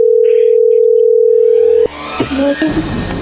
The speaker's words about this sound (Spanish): Le estamos marcando otra vez